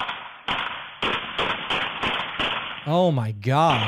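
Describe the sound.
Several sharp gunshots fired by a Navy recruiter at a Naval Criminal Investigative Service agent in a news video, crisp cracks spaced about half a second apart and thin in tone, followed by a voice speaking.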